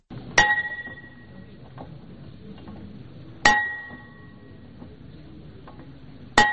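A school bell is struck three times at a ceremony opening the school year, each a sharp metallic ding with a brief ringing tail, spaced about three seconds apart over quiet background.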